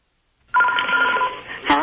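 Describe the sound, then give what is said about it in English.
A telephone rings at the start of a prank call: after a short silence a loud, bright electronic ring sounds, dips briefly, then swells again. “the good old prank phone call. And here's one of my favorites that I want to share with you.”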